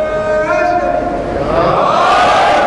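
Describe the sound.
A crowd chants a religious slogan in praise of Muhammad and his family on a night of mourning for Ali, loud massed voices swelling into a sustained shout.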